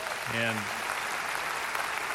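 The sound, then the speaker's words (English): Applause from a church audience: a brief voice at the start gives way to steady, sustained clapping that carries evenly to the end. “Somebody give the Lord a hand on that.”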